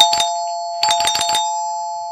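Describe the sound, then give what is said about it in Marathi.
An electronic doorbell rings: a short burst of chiming notes, a brief pause, then a quicker run of several more bright notes, fairly loud and without talk. “अरे bell वाजली. आत्ता कोण आलं असेल? दार उघडतोस का”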